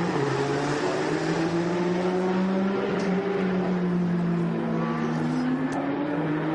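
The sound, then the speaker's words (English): A Porsche race car's engine drones loudly and continuously as it works through traffic during a race, its pitch shifting gently as the note holds. “It's Oleksiy Kirishenko in the double eight up to race Porsche, trying to get through some traffic.”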